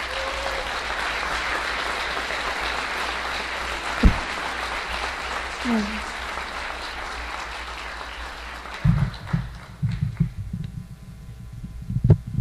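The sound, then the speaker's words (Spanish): Audience applause at a spirits and distillates congress, dense steady clapping for about eight seconds that then thins into scattered louder claps as a voice breaks in near the end. “Yo creo que podemos aplaudir un poquito más fuerte.”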